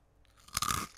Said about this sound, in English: They are basically scampi fries, but they're fancier and they're nicer and they're far more lemony. But I'm gonna just do the crunch first.